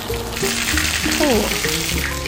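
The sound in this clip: Sugary food, something like sweet potato, sizzles as it pan-fries in oil, a steady hiss running through the whole clip beneath an excited voice that exclaims in surprise.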